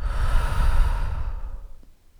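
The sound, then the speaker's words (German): A person takes one deep breath in and out, a long, breathy rush that fades to near silence at the end. “Atme tief ein und wieder aus.”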